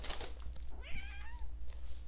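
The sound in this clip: A cat meows once, a short, moderately loud call whose pitch rises and then eases down, heard over a steady low hum.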